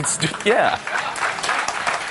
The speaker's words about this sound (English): No, applause is appropriate.